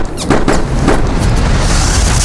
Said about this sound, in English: I gotta end this here. With old Shooty, my trusty gun.